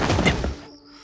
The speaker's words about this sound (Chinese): 只听轰的一声，那幽冥蜘蛛竟然直接爆炸起来，将小半片院墙炸得粉碎